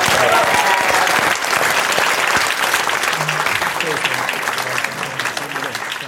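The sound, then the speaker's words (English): An audience applauds guest Johnny Mercer at a live show, a loud, dense clapping that holds steady from start to finish and tapers only slightly near the end. “Ladies and gentlemen, thank you all for coming, for being an amazing audience. And give it up one more time, Johnny Mercer!”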